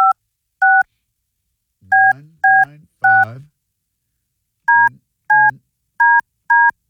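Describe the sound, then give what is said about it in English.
Telephone keypad touch tones: about nine short, clean two-note beeps at an uneven pace. A low voice murmurs beneath several of the middle tones. “Simple, dial this number and let your voice be heard. I'm trying.”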